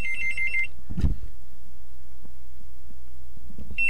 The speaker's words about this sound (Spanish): Ahí está sonando el teléfono.